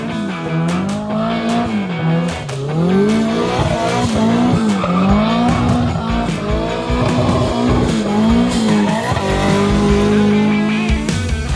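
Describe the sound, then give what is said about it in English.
An S13 hatchback with a fairly stock SR20 engine is driven hard. The loud engine note rises and falls repeatedly while tires squeal and skid throughout, with no talk. “That is Alex's S13 hatch with a, he says, fairly stock SR20, just sending it.”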